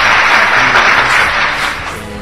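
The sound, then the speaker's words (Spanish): Applause, given as a cheer for Greece: a dense, loud wash of many hands clapping together that holds steady and then dips a little in the last moments. “Obviamente, aplausos. Aplausos para Grecia.”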